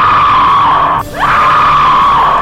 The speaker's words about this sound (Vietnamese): Họ cùng kêu thét lên.